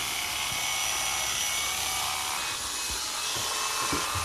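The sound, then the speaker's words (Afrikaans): An electric hair clipper buzzes steadily while shaving dogs' coats down bare, a constant high, raspy whir with a few faint knocks and rubbing sounds underneath. “ek gaan nou my klipper vat ek gaan nou staan dan gaan ek julle sny”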